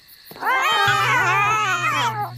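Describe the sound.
A kitten gives one long, drawn-out meow that wavers in pitch and holds loud and clear for about two seconds, with a low steady hum underneath.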